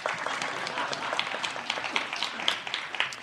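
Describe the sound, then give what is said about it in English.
Faint applause rises from a church class, a dense, continuous patter of overlapping claps that holds at a fairly even level throughout. “All right. You can applaud.”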